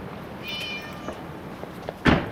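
A cat looking out of a first-floor window gives one short, mid-pitched meow over a steady background hiss. A louder dull thud follows near the end.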